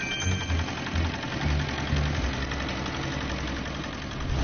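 A fishing boat's engine running with a steady, low, mid-pitched rumble and a faint knocking vibration, holding an even level throughout with no voices.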